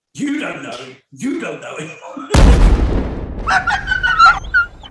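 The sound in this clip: A spaceship is destroyed in a video game, making one sudden deep boom with a rumbling tail that fades over about a second. Speech comes before the blast and more voices follow.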